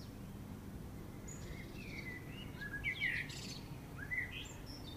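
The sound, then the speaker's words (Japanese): Bright bird song: a few chirps and short whistled notes, loudest near the middle and again toward the end, over a steady low background rumble. “すごい効果音みたいな、ね、綺麗な鳥の声”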